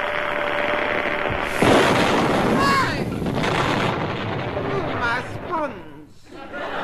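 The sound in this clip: A camera flash gun, a candle-powered model with a cardboard trigger, goes off with a sudden broad bang, followed by a noisy rumble as voices carry on throughout.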